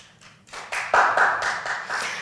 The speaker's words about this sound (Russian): Похлопайте, если кто-то спал сегодня 8 часов.